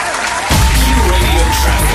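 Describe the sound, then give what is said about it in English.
Crowd cheering played as a birthday cheer: a short, loud burst of dense whooping and clapping that swells quickly and holds steady to the end. “We'll give you a cheer.”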